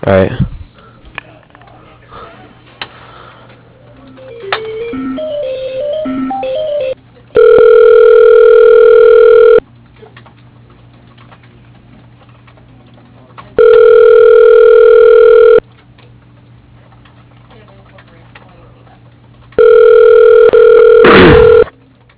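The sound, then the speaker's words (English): Telephone ringback tone during a call transfer: three long, evenly spaced rings, each a loud steady buzzy tone lasting about two seconds and separated by quiet gaps, preceded by faint muffled noises and sniffs on the line. “Well, I can transfer you to office manager, but that's about it. Let me transfer you over to her.”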